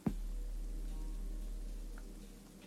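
Rain falls outside a house as a faint, even hiss that holds steady throughout, with a soft low rumble underneath and a brief knock at the very start.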